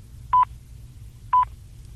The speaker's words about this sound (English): And we should be dialing the time for Australia.